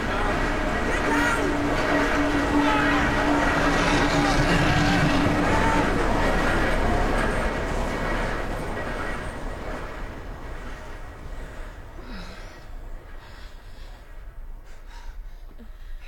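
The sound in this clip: A train approaching along railway tracks with a heavy rumbling roar that stays loud through the first half and then eases off, while voices and gasps break in.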